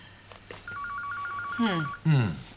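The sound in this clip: An electronic telephone ring sounds as a rapid, warbling trill of two alternating tones. It runs steadily for over a second, and a voice speaks over its final part.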